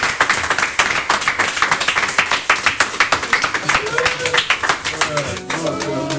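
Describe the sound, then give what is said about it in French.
Audience applause at a live concert: many hands clap in a dense, fairly regular rapid rhythm. The clapping is loud throughout, and voices rise over it toward the end. “Ovation, s'il vous plaît.”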